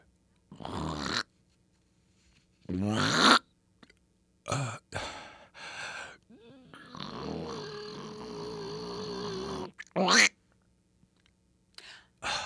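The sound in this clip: A person imitates a wheeze with their voice as a sound effect: several short breathy, rasping bursts, then a long drawn-out wheezing breath with a faint hum in it, followed by a few more short puffs between silences.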